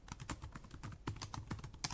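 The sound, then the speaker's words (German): Fingers type text on a computer keyboard in a quick, irregular run of many faint key clicks and taps, with no voices. “das ist das Geräusch der Tasten meines Computers, wenn ich einen Text tippe.”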